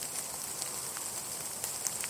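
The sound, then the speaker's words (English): Rain falling outdoors, a faint steady hiss of drops with scattered soft patters throughout. “Put my laptop case over my head so I'm dry.”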